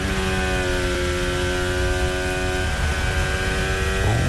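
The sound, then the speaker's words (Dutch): A Formula 1 car's engine is heard onboard as it approaches the Lesmo 1 corner during third free practice at the 2026 Italian Grand Prix. The engine is a steady, harmonic, whining drone that drops in pitch partway through and starts climbing again at the end. “Onboordgeluiden komen bij Kimi Antonelli vandaan richting Lesmo 1.”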